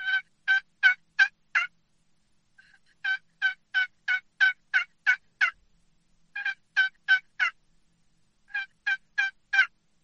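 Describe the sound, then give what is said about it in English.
Soft tree-call yelps of a turkey hen, played on a box call: four short runs of raspy, evenly spaced yelps separated by pauses, kept quiet throughout. “the hen is going to be doing what they call tree calling. And it's just some very, very soft yelps.”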